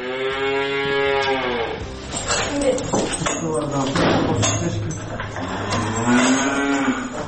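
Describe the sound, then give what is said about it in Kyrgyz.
Cows mooing on a farm in Svetenko village in Chüy: low, drawn-out harmonic calls at the start and again near the end, with clattering and other movement between them. “Так, вот эти у нас коровы, Анжела и Туча, они у нас очень с характером, такие, не принимают чужих людей.”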